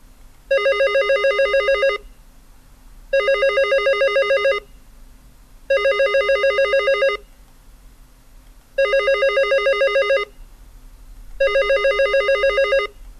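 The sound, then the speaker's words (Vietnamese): A telephone rings in five long bursts with short pauses between them. Each burst is a loud, steady, bright electronic tone with a rapid buzzing pulse, heard alone over a faint low hum. “Nhưng chuông điện thoại cứ reo lên liên tục khiến cho mình bực mình lắm.”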